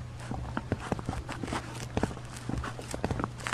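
Footsteps walking along a narrow private lane beside a building: many soft, fairly even steps at a steady walking rhythm, quiet overall, over a faint continuous low hum.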